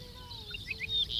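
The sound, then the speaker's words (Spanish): Whistled song of a ricotí (rufous-collared sparrow), its titutí call heard as a few faint, high, short chirping notes over a low background rumble. “ricotí se llama como tal porque es una emulación de la onomatopeya que produce en el canto, el titutí.”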